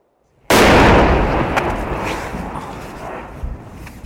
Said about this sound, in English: That was another really loud incoming mortar round. That was very, very close.